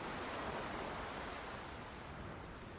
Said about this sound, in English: Next, the green fronds of a palm leaf gently waving in the wind, and clear waters rolling onto a sunny shoreline.